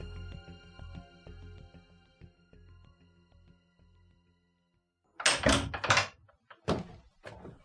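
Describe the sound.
A home front door is opened in the evening in an audio drama. A fading tonal passage and a silent pause come first, then two bursts of loud clattering knocks and thuds.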